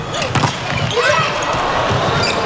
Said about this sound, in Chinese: 龚翔宇发球，